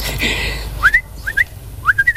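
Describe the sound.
Bird calls from a bird said to like sour starfruit: three short groups of bright, quickly rising chirps, separated by brief pauses, over a faint low hum.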